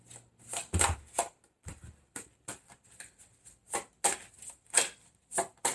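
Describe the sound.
Tarot cards being shuffled for a Leo reading: many quick riffling and slapping bursts in an irregular rhythm, with short pauses between them and no voices.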